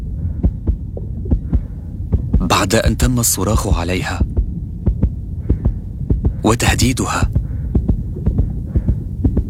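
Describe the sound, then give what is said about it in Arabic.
A nurse's heartbeat after being shouted at, threatened and grabbed: a steady, quick run of many low thumps over a dull hum, carrying on beneath a voice speaking. “هذا صوت معدل ضربات قلب ممرضة”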